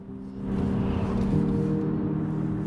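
Car driving, a steady low engine drone that swells in after the first half-second and holds evenly, with no talk.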